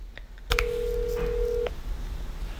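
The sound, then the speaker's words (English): An outgoing phone call rings through: a few soft clicks, then a single steady ringback tone holding for just over a second before cutting off, with quiet room noise around it. “She texted me she wanted to talk, so I'm calling to check in.”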